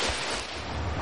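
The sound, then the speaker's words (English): Water splashing as many swimmers stroke through the swim leg of a triathlon, a dense, steady wash of churning noise with no distinct strokes standing out, heard alone for about a second. “142 hands swimming a triathlon.”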